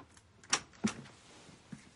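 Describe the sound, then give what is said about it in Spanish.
A living-room door opening in a film scene: a couple of sharp, quiet latch clicks close together, then a softer knock a moment later, with no speech. “George abre la puerta de la sala”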